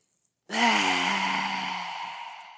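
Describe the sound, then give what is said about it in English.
A long, deep breath during a breathing exercise, drawn with the mouth open and tongue out. It starts suddenly after a short silence and holds steady for about two seconds with a soft voiced, sigh-like tone before slowly easing off. “Open your mouth, tongue out. Again, inhale. Three more times.”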